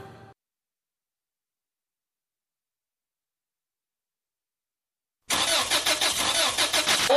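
A car that has broken down cranks its engine after several seconds of near silence. The starter churns in a loud, rapid, rhythmic chugging burst of many evenly repeated pulses.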